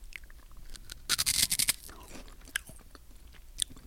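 Biting and chewing a chocolate snack: a burst of loud, crisp crunches, followed by quieter, scattered chewing and crackling sounds.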